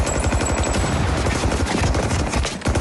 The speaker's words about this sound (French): Les fusillades sont vraiment grisantes, on s'y croirait, on est dans le feu de l'action, c'est assez tendu.